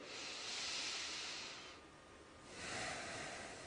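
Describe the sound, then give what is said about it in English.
A long, deep breath in, heard as a soft, airy hiss that swells, eases off, then swells again, quiet and alone. “So may I invite you at your screen to take a long, deep breath in right now. I will also do it.”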